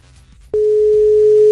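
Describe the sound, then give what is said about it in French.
Telephone ringback tone heard while placing a call: after a short, quiet stretch of low background noise, a single steady, pure, mid-pitched tone starts abruptly and holds unbroken to the end. “Essayons d'appeler ce professionnel qui répond au doux prénom de Frédéric. J'espère qu'il va nous répondre.”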